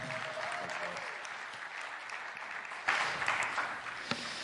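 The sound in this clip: Audience applause welcomes a speaker to the stage at a church gathering, a steady wash of clapping from many hands that swells briefly louder partway through and carries on to the end.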